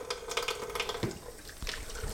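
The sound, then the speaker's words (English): Tap water runs into a sink while a child washes their hands with soap: a steady, fairly faint splashing flow with small irregular spatters and knocks throughout. “So can you wash your hands first? Mm. Put on some soap.”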